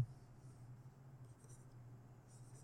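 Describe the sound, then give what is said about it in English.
A coloring pen drawing on paper makes a faint, continuous soft scratch, with a few brief hissy strokes rising above it. “I'm just gonna make a very bad drawing of the person. Just to have him there. Come on, color.”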